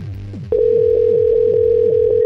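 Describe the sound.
A telephone dial tone sounds before a call is placed: a steady, loud, unbroken tone begins after about half a second and holds to the end, with a softer, lower pulsing sound underneath.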